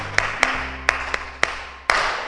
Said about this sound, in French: Très bien, mon ami. Hein? Applaudissez pour notre ami.